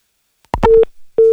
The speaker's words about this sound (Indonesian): Baik ya, terputus dengan Atep Burhanuddin, kita akan coba hubungi kembali.